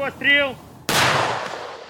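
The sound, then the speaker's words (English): A single sharp gunshot comes from Ukrainian troops during the southern counter-offensive near Orikhiv. It is a sudden loud crack with a long, slowly fading tail, preceded by a brief voice. “Yet, they have to shoot their way forwards, round by round.”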